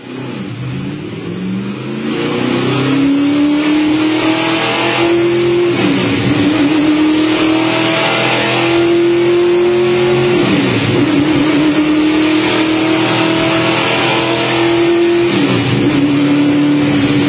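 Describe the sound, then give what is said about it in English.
Race car engines rev at the trackside in a loud sustained drone whose pitch climbs repeatedly, dipping briefly at a few shifts before rising again. “let's go trackside and see how we're sounding.”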